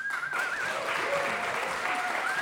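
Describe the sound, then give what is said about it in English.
Appreciative applause for a thanked collaborator: continuous, dense clapping from many hands at a steady level throughout, with a voice audible over the clapping. “Yeah, he deserves like massive applause.”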